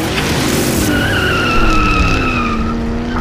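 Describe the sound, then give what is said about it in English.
Tires skid and squeal in a car chase sound effect set in an abandoned, ruined city, with the pedal pushed down hard. A loud, sustained screech rides over a roaring engine for about three seconds, with no voices. “a car chase through an abandoned, ruined city, the pedal down hard as you speed towards your goal, overtaking your rival.”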